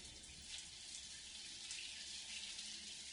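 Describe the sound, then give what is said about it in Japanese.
Hot water running while hair is rinsed: a faint, steady hiss and splash of flowing water with no breaks. “お湯が流れる。後ろの髪から泡がするりと消えていく。”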